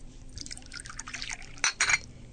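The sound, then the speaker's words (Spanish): Water is poured into a drinking glass: a faint trickle of liquid, then a couple of brighter splashes and drips near the end. “se sirvió en un vaso el agua que doña Eulolia le deja sobre la mesa”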